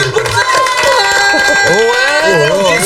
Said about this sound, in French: On vous applaudit ou pas? Allez, mais on oui, bien sûr.